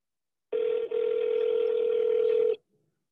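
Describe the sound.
A telephone call ringing out: a single steady ring tone lasting about two seconds, with a tiny break near its start, sounding alone before cutting off into silence.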